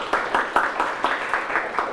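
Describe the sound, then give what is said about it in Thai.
Students in a classroom clap for a classmate with a steady, rhythmic beat of evenly spaced claps at a moderate pace. “เก่งมากครับปรบมือให้เพื่อนหน่อยครับ”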